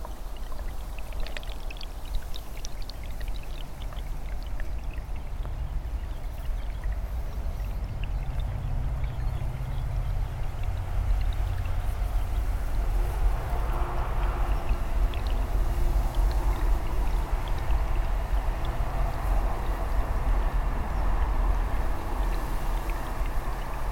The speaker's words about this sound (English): In case you wondered, this is the ooze, and I think the sounds suit the river name.